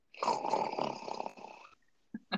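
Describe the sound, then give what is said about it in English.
A voice imitates a man snoring on his back after drinking liquor: one long, rasping, drawn-out snore that fades out, followed by two short, sharp snorts. “He snores when he drinks liquor. Because he's out so hard, he just lays on his back and”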